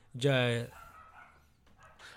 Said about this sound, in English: I don't know if y'all can hear the barking dog in the background